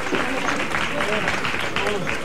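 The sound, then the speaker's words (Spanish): Crowd applause for a religious brotherhood's procession entering its brotherhood house in the early morning. A steady wash of clapping continues while a voice talks over it. “Y se hace el aplauso por el trabajo bien hecho.”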